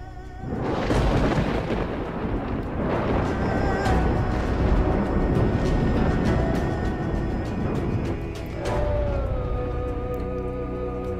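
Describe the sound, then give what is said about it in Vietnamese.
Thunder rumbles through a mountain valley as a story sound effect, a loud, continuous heavy roar that keeps up with little pause from start to finish. “Lôi điện cuồn cuộn phủ đầy trời, toàn bộ sơn cốc lôi điện ầm vang.”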